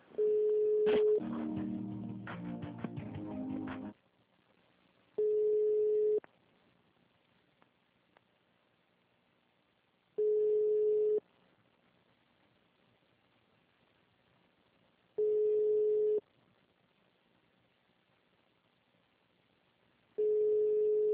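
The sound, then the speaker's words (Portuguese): Telephone line tones while a call is being transferred: after a noisy opening stretch, a steady mid-pitched beep lasting about a second repeats every five seconds or so, with faint hiss between the tones. “Só um minutinho só que eu vou transferir a ligação.”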